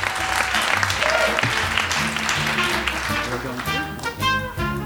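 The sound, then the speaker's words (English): An audience applauds to welcome a contestant. Dense, steady clapping lasts about five seconds and thins slightly toward the end. “Let's hear it for him. How about a big welcome for our first contestant?”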